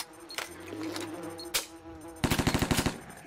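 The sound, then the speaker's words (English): Burst of gunfire from an MP5 set to burst fire in a video game: a quick run of sharp, evenly spaced shots near the end, preceded by a couple of isolated sharp clicks over a low hum. “MP5 burst fire equipped.”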